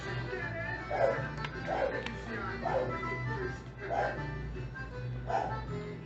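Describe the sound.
A dog barks a few times at a steady, spaced rhythm under a constant background of talk and other noise, the barks fairly faint and mid-pitched.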